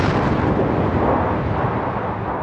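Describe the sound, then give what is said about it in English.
Rocket launch blast-off: a loud, continuous roar filling the whole clip with dense, rumbling noise, steady throughout and easing only slightly toward the end, with no voices. “3, 2, 1, blast off.”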